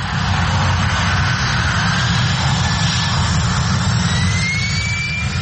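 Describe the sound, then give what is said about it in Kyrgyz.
Jet airplane passing low over a village beside an airport runway: a loud, steady, unbroken engine roar with deep rumble and a faint whine rising in pitch toward the end. “Учактар чыпчык учкан аралыкта айылдын так үстүнөн өтөт.”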